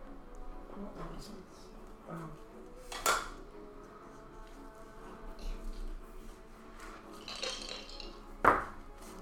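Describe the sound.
Dice clatter on a table during a tabletop role-playing game session, with two brief sharp rattles under ongoing voices and low background noise.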